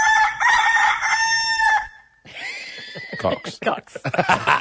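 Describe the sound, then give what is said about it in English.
A rooster crowing sound effect: one long, loud, strained crow fills the first two seconds, then people talk over a short break. “I reckon we can only say it 3 more times and then we have to use the rooster sound.”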